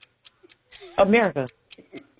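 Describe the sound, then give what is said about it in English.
A game show clock ticks in quick, even, light clicks that run steadily throughout, while a person speaks briefly over the middle of the ticking. “Start the clock.”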